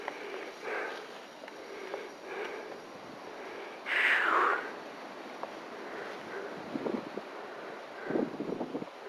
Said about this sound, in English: So, that wind is just wicked. It's coming all the way through here.